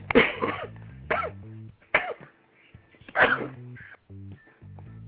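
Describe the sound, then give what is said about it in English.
Four harsh, throaty coughs in separate bursts, spaced about a second apart, from a person hacking heavily. Music plays steadily underneath. “I coughed up full lungs.”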